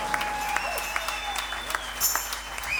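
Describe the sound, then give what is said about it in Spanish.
Applause from the audience at a live rock concert, dense and continuous clapping that holds steady at a fairly even loudness for the whole stretch. “Un aplauso para él, por favor.”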